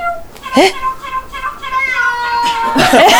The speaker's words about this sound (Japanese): めっちゃ泣いてるよ。猫の声です。